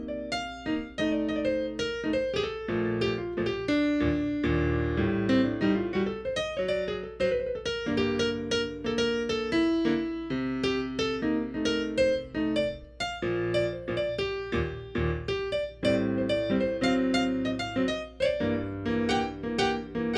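Jazz piano improvisation over a standard: flowing melodic runs over a continuous cushion of chords, steady and moderately loud throughout, with no voices.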